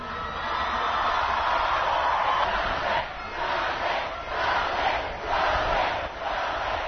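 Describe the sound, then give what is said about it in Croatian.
A large outdoor crowd cheers and roars for the national basketball team's coach on the plaza in front of Stari dvor in Belgrade, the noise surging and dipping in several swells. “Najjači aplauz dobio je strateg naše reprezentacije.”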